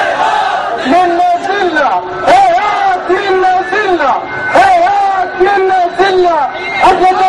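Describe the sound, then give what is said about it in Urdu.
A crowd chants a slogan in unison, many voices loud and rhythmic, repeating phrases that rise and fall in steady waves. “ظالم ہار گئے مظلوم جیت گئے اور مظلوم نعرہ لگا رہے ہیں”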